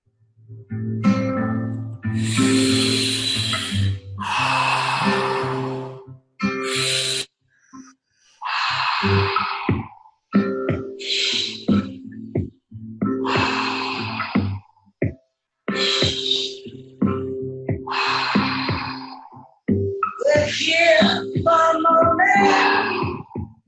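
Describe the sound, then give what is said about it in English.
Loud, forceful breathing during a guided breathing exercise, with many breaths in a steady rhythm over a sustained tonal backing. “And I'm excited to drop into practice right now. And here we go. Just breathe nice and fluid.”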